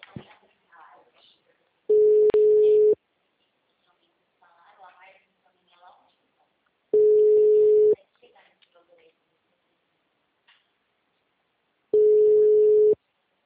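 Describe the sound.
Ringback tone of an unanswered phone call: three one-second bursts of a steady mid-pitched tone, spaced evenly and separated by long gaps where a voice talks.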